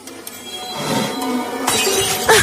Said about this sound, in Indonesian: astaga, sebuah gelas yang berada diam di atas meja kamarku kini tiba-tiba saja terjatuh